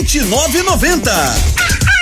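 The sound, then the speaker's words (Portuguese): A rooster crows, a loud call of repeated wavering pitch swoops, set within a dense, busy mix of other sound. “O galo cantou.”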